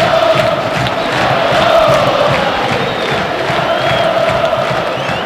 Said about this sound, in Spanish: Me encanta, señoras y señores. Canta el público jujeño, venimos a ver la victoria del Lobo jujeño